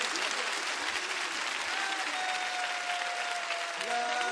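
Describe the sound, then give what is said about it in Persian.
Steady, dense applause from a crowd at a Shia religious celebration, many hands clapping in a continuous loud wash with no breaks. “این دست زدنه باید بوی شرف و شادی بده”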